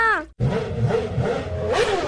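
A motorbike engine revs briefly as its throttle is opened, a short, loud burst of engine noise that settles into a rough, sustained rumble.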